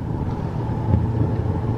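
Steady low road rumble and engine drone from a car driving along Interstate 90 from Boston toward Connecticut, a continuous, fairly loud hum mixed with wind noise and no voices.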